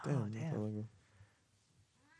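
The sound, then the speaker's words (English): A cat lets out a loud, drawn-out meow with a rising and falling whine, then the sound drops to faint, low background noise. “Shut that cat up. Shut that fucking cat up.”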